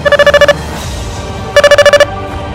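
A mobile phone ringtone plays as two bursts of rapid, bright electronic beeps separated by a short pause, loud over a steady background hiss.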